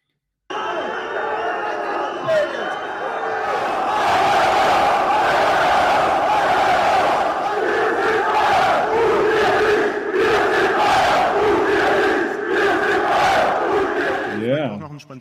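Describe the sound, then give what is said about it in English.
Football fans of Bayern Munich chant at the club's president and board, a huge massed crowd roaring a rhythmic, repeated chant that swells early and stays loud for about fifteen seconds before ending in one shout. “So what you just heard is Wer sind Bayern, du bist nicht. Und ihr nicht. Und ihr nicht. We are Bayern, you are not. They're yelling at the president.”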